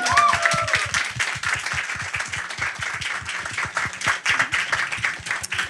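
An audience at an event applauds with many distinct, sharp hand claps in a brisk, uneven patter that continues at a steady level throughout.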